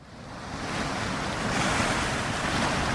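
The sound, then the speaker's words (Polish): Ocean waves break on the shore of a Pacific island: a loud, continuous rushing wash that swells over the first second and then holds steady, with wind noise mixed in. “Wszystko tu związane jest z wodą, dlatego ja siedzę teraz na brzegu oceanu i patrzę,”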